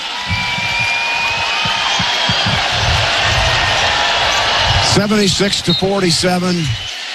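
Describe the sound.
A basketball is dribbled on court in the closing seconds of a college game, making repeated low thumping bounces under steady crowd noise. A man's voice speaks near the end.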